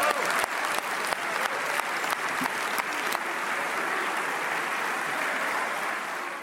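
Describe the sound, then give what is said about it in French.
A Senate chamber gives a standing ovation. Dense, sustained applause holds steady, with a few sharper claps standing out early, and thins slightly toward the end. “Standing ovation de l'hémicycle au Sénat.”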